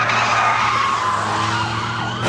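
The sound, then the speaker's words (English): Tyres screech loudly as a fleeing car skids on the road near a tractor-trailer. The harsh squeal is continuous for about two seconds, with engine rumble beneath. “He'd like to squeeze through, but slams into the truck's back end.”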